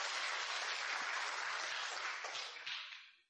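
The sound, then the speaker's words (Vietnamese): An audience applauding at a lecture, a dense, hissy patter of clapping hands that holds steady and then tapers off and fades out at the end. “Mọi người vỗ tay khích lệ một chút.”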